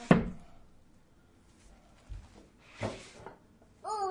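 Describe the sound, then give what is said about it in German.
A drawer is pushed shut with one sharp wooden thunk, followed by quieter knocks and handling noises, and a voice sounds briefly at the end. “Mach mal Schublade zu.”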